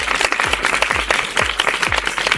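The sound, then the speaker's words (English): A big round of applause rolls on without pause, thick with overlapping claps at a steady, fairly loud level. “And if you did the actions at home, give yourselves a great big round of applause.”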